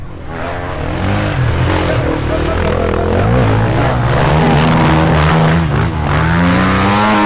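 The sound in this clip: Cross kart racing engines roar loudly and continuously, their droning pitch rising and falling as the karts accelerate and ease off during a race.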